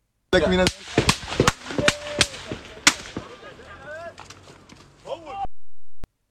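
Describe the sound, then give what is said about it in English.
Gunfire from a military position: several sharp, loud cracks in quick irregular succession, each decaying briefly, with voices heard between and after the shots. “2 minutes before the incident, a shot is fired from the IOF position.”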